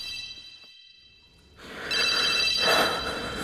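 A telephone rings with a high, steady tonal ring. It grows louder and noisier in the second half and continues to the end.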